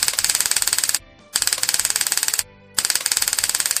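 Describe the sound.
Rapid electric crackling from a taser stun gun firing its discharge: three loud bursts of sharp, fast-repeating clicks, separated by two brief silent pauses.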